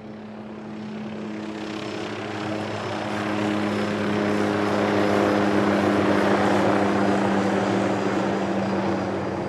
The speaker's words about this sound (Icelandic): Hljóð í þyrlu. Þyrla hafði verið send í leita brakinu